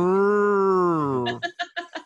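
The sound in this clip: A human voice imitates a passing motorcycle that sounded like a cow: a long, moo-like tone that sags slightly in pitch, followed by a few short, rhythmic bursts.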